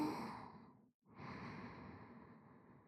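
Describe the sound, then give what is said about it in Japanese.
A deep breath drawn in and let out: two long, soft, airy rushes of breath separated by a brief silent pause, steady and even in loudness. “深呼吸して、息を整えて。ほら、吸って、”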